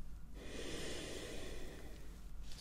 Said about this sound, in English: Okay, and in. And out. One more time. Deep breath in.